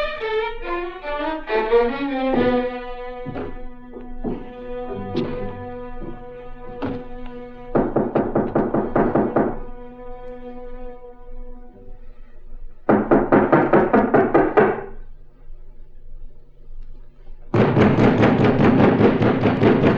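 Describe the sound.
Loud knocking on a hotel room door: a series of separate thuds, then three longer bursts of rapid, heavy pounding.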